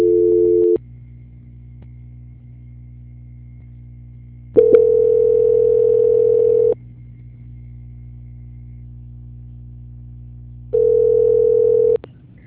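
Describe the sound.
Telephone tone during a call transfer to a bank's quality-control department: a steady beep sounding three times with long silent gaps between, over a constant low hum on the line.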